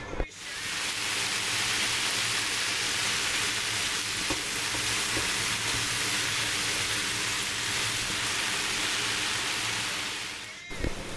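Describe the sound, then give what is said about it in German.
Mushrooms, leek and ham fry in oil in a pan, giving a steady, loud, even sizzle that holds almost unbroken for the whole stretch, with only a few faint clicks and pops. “dann kommen anschliessend Pilze rein, dann unseren Lauch und auch unsere Schinken und wir tun alles schön anbröteln.”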